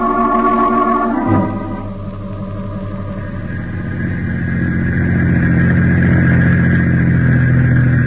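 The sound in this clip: Steady car engine hum while driving, a low droning rumble that holds evenly throughout with no voices over it.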